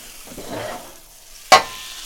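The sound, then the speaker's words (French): Food in a frying pan coated with a good layer of butter: a faint frying hiss, then a sudden loud sizzling burst as the pan is flipped, fading quickly. “L'artiste prend le manche de la poêle et la retourne.”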